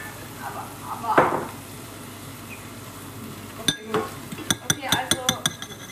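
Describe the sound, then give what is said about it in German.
Bacon frying in a pan gives a steady, soft, hissing sizzle, broken toward the end by several sharp clinks of utensils against the pan. “wir lassen den Speck noch zwei Minuten braten”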